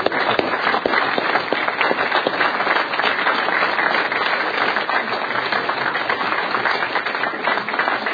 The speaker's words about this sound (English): I think you know who you are, and so let's give them a big round of applause.